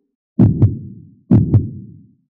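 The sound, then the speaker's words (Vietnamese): A deep pounding heartbeat racing at an extreme rate: two heavy, low lub-dub beats, each a pair of close thumps, sounding alone against silence. “Trái tim đã phản phức giống như một cái đại cổ, sinh ra từng đợt trầm thấp tiếng vang”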